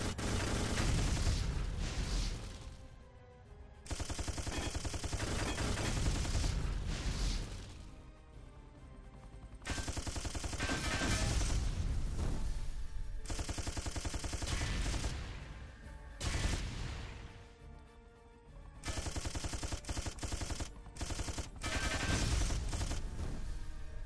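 Rapid gunfire from a gun in a video game, loud and sustained, coming in several long stretches of continuous shooting separated by brief lulls, with no talking.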